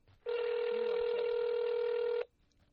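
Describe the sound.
A telephone ringing on speakerphone gives one steady, unbroken electronic ring tone lasting about two seconds at a constant pitch, fairly faint, then cutting off into near silence.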